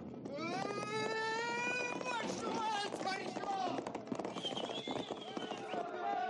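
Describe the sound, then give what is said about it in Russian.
Horses galloping with riders past the doors of a temple in a battle: a dense, continuous run of hoofbeats from several horses, loud throughout and mixed with sustained, high-pitched vocal cries. “Мимо дверей храма скачет всадник. На скаку он швыряет топоров, держащих бревно воинов, сшибает несколько. За ним скачут всадники.”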